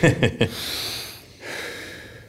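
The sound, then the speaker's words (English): Someone takes a deep breath: a few short, breathy puffs give way to a long, airy inhale, then a second sustained rush of breath. “I'm now gonna take a deep breath and not pass out.”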